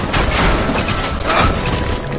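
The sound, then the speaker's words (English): Fuel tanks blow up after being hit with charges in a video game. A loud, dense blast roars continuously through the whole short clip, with no voices over it. “We left some fuel tanks behind. Shoot them with some charges to blow them up.”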